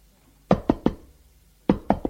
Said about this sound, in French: On a frappé à la porte.